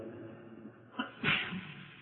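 A single sneeze interrupts an Islamic jurisprudence lesson: a brief breathy catch, then a sharp, forceful burst that fades out over a quiet background.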